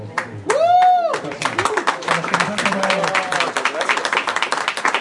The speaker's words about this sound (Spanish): ¿Ya ven por qué tenían que aplaudir fuerte? ¡Señores! Si hubieran aplaudido más,